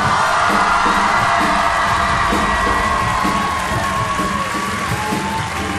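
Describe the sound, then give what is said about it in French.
Audience ovation with cheering and whoops at a show, a loud continuous crowd roar over a steady, regular low thumping pulse. “J'aimerais une ovation pour Antoine Cognam.”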